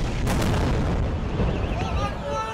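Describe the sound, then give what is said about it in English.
An airstrike explosion hitting a single building on a dense city street, a loud, sustained roaring rumble with a sharp burst near the start and a voice speaking over it. “In one of the densest places on the planet, an Israeli airstrike hits a single building.”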